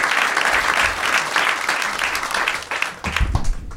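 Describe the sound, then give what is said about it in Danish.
Audience applause greets the first guest, a wedding planner, as a dense, steady wall of clapping that stays loud for the whole stretch, with a short dip near the end before it swells again. “Giv en kæmpe stor hånd til en bryllupsarrangør. Giv ham en kæmpe stor hånd.”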